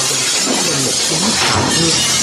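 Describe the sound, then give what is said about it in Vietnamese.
A flower vase knocked off a table smashes in a dense, loud burst of shattering and breaking that holds steady across the whole moment, with no voices. “bình hoa trên bàn ngay lập tức bị tay nàng phẩy trúng, rơi xuống và đập mạnh vào đầu A Dân.”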